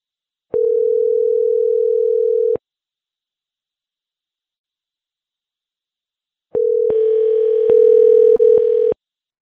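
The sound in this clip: Telephone ringback tone on a call to a locksmith: two long, steady, mid-pitched rings separated by silence, the second overlaid with extra higher tones and clicks.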